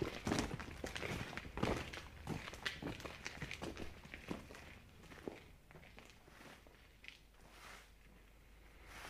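Footsteps of several people walking home, many irregular steps and thuds that are loud at first and grow quieter.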